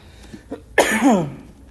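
A single dry cough, loud and sharp with a rough, throaty tail, preceded by a couple of faint small sounds.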